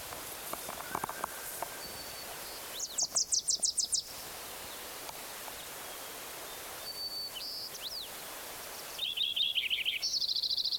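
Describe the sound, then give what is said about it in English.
Song of a Wilson's warbler: several short bursts of rapid, high chattering notes, separated by quiet gaps and fairly faint against a soft hiss. “Eleven, Wilson's warbler again.”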